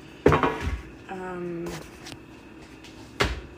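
A baking sheet and a flimsy pan handled in a kitchen, giving a few sharp metallic clanks, with the loudest knocks at the start and near the end and a short ringing tone between them.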